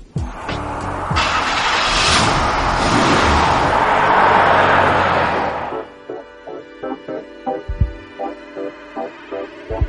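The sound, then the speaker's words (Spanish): A car engine roars loudly and steadily for several seconds, then cuts off abruptly, giving way to a run of short, regular clicking pulses. “Pues yo diría que encendemos el motor y comenzamos.”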